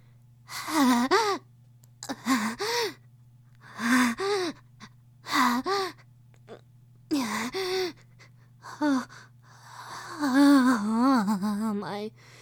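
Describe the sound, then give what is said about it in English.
Heavy gasping breaths from someone unable to catch their breath: a long series of loud, voiced gasps and sighs with brief quiet pauses between them, running close together and growing longer toward the end. “Oh my word. I cannot seem to catch my breath.”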